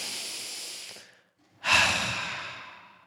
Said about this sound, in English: If you would, take a deep breath with me as we pray.